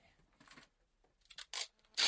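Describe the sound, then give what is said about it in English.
Adhesive tape pulled and torn off a roll makes a few short, rasping strips of sound. The bursts grow louder toward the end, and the last one is the loudest. “Pass me that tape.”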